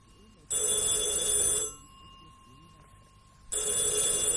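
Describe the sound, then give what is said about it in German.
A loud ringing signal summons someone to a radio handset set at home. Two long ringing bursts are separated by a pause of about two seconds, and the second burst is cut off at the end. “Das ist das Signal, dass ich an das Funksprechgerät gehen soll.”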